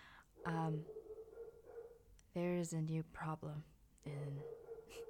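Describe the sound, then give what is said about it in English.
A loud dog barks right next to a room, in several harsh barks in uneven bursts, some drawn out and tonal, with a voice heard alongside. “there is a really loud dog barking almost virtually right next to my room.”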